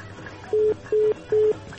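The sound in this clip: Three telephone keypad dialing tones, each a short steady beep of equal length, evenly spaced and clearly louder than the faint low hum underneath.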